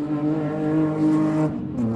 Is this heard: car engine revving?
yes

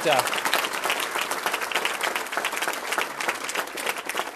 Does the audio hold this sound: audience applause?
yes

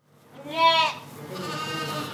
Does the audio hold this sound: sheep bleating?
yes

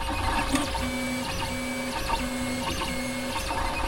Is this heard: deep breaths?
no

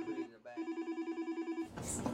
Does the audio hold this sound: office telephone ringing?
yes

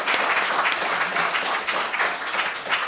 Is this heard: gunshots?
no

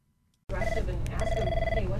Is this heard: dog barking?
no

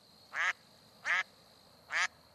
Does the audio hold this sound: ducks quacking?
yes

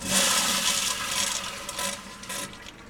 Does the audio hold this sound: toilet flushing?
yes

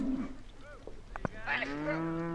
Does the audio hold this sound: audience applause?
no

